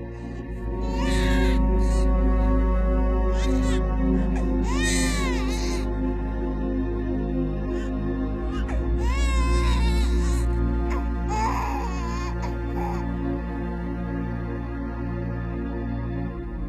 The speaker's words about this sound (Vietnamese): Đến nửa đêm, hàng xóm láng giềng cũng rát cả ruột cả gan khi thấy đứa bé nó khóc ngằn ngặt.